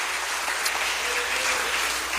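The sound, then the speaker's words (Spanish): Church audience applauding, a steady, dense wash of many hands clapping that holds at an even level from start to finish. “Le damos un aplauso al Señor. Gloria a Dios.”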